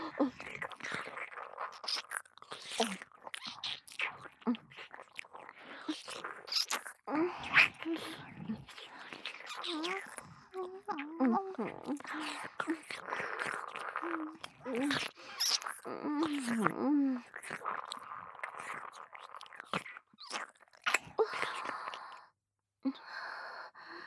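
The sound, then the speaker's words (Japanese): Many soft, wet kissing and lip-smacking sounds in an intimate deep-kiss scene, mixed with breathy sighs and whispery breaths, continuing steadily for about twenty seconds before a brief pause. “この濃厚なキス味わわせて。”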